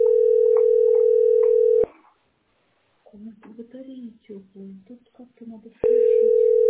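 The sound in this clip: A steady, unbroken telephone dial tone sounds while a call is being placed. The tone cuts out briefly, some voices are heard during the gap, and then the same tone resumes at full strength.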